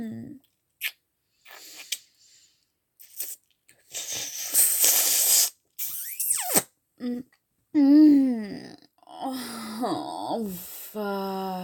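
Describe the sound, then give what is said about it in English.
Wet mouth biting and nibbling sounds come in a few short squishy, crunchy bursts, with breathy vocal sounds between them and a longer dense burst in the middle. “I'm just gonna bite you, okay? I promise. I promise I'll be gentle, okay?”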